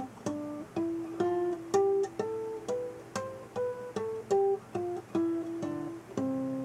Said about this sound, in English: All right, now that's the sound of a natural harmonic, but it's using artificial harmonics.